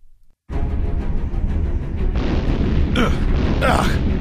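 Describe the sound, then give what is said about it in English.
Missile explosions in a sci-fi audio drama: a sudden loud booming blast swells into a sustained roaring rumble, with two further sharp bursts breaking through near the end. “What's hitting us, Pixel? Noxov-7 missiles from the moon's surface. There are too many missiles!”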